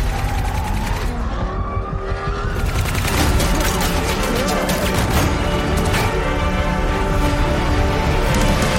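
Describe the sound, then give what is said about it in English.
Gunfire in a dense, sustained fusillade, loud and continuous after a brief, thinner opening, blended with a roaring, screeching layer that resembles vehicles and skidding tires. “Shots fired. Shots fired. All units, please respond.”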